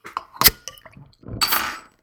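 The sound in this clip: A bottle of beer is cracked open: a sharp clink of the cap comes first, then a brief, bright fizzing hiss as the gas escapes.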